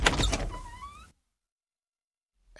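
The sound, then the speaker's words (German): A door being opened gives a short creaking whine of about one second, with thin rising squeaks over a rough rustle, then silence. “Ich mache meine Tür auf.”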